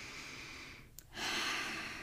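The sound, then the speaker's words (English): A person takes a long, airy breath in during a guided vocal and movement exercise, a soft broad hiss that swells after a brief pause, faint overall. “So let's breathe in”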